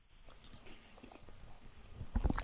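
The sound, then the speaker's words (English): A person chews and swallows food with soft biting and wet mouth sounds. The sounds are faint and irregularly spaced, with a slightly louder burst near the end. “I'm swallowing some food here right now. Sorry.”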